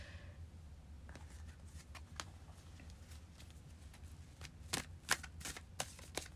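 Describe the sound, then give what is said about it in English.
Tarot cards being shuffled, handled and drawn make soft, quiet papery rustles and flicks, with several crisper snaps toward the end. “I'm gonna pull one more card here.”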